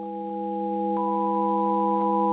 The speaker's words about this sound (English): when you play tones that are not spaced harmonically, they wobble. They're like, blah, blah, blah, like they're a mess. These tones just consecutively